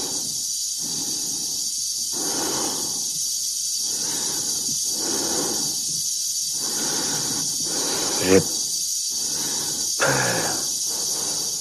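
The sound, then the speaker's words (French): An astronaut's oppressive breathing, slow and heavy, comes as a regular series of raspy breaths about two seconds apart over a constant high hiss. A few sharper catches break into the later breaths. “La respiration oppressante que l'on entend derrière, c'est celle de Dave, hein, du cosmonaute.”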